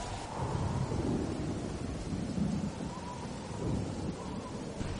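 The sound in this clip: Heavy rain pours down in a dense, continuous hiss, and low rolling thunder rumbles swell beneath it a few times.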